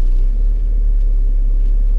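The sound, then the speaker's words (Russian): Steady, low road-and-engine rumble from a car driving toward Bellevue. The drone is constant throughout, with no talk or other distinct sounds. “Так, что мы сейчас делаем? Мы сейчас едем в Белвью.”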